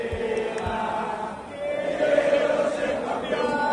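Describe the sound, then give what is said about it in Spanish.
A crowd of Argentine football fans fills the Doha souq in the city centre on the day of the Argentina–Netherlands match, a dense, steady roar of many voices with a sustained chant-like tone rising out of it. “Esto es esta tarde en el zoco de Doha, en el centro de la ciudad.”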